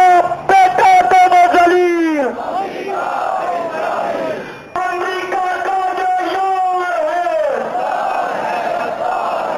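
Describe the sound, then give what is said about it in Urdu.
A crowd at a Quds Day protest rally in Pakistan chants slogans against America and Israel in loud unison. Two long shouted phrases each slide down in pitch at the end, separated by a brief ragged lull. “جن کے شرکاء نے امریکہ اور اسرائیل کے خلاف شدید نفرت کا اظہار کرتے ہوئے نعرے لگائے۔”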